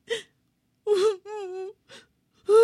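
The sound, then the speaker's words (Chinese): A voice acts a Tyrannosaurus crying in a children's dinosaur story, with five sobbing bursts and a long, quavering wailing moan in the middle. “霸王龙已经心疼的泪流满面，薄片龙一动也不动。霸王龙紧紧的抱着他，哭了起来。”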